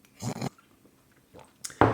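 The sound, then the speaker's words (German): Gulping and swallowing of someone drinking to clear a frog in the throat: a few short, wet mouth bursts separated by quiet gaps, with no talking. “Frosch im Hals, muss kurz was trinken.”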